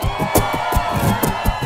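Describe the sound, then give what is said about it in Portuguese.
A crowd at a live party shouts and cheers in a short, loud burst of many voices, with rhythmic thumps pulsing underneath. “Quem tá feliz, dá um gritão aí!”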